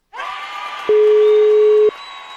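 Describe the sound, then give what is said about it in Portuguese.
A telephone tone sounds while a call is being placed: a single steady, mid-pitched beep of about one second. Quieter continuous tonal sound runs in the background before and after it. “Vou ligar pra Sandrinha.”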